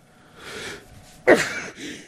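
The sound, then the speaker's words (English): A person sneezes once. A breathy inhale leads into a single sharp, loud burst, then a softer trailing exhale. “how's that for a live sneeze, huh, folks? Just goes to show you, this is live, taped live, no editing.”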